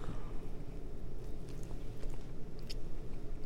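Soft wet biting and chewing on a caramel coconut chocolate donut dipped in toasted coconut, drizzled with chocolate and topped with scratch-made caramel, heard as a steady, dense run of squishy, slightly crunchy mouth noise.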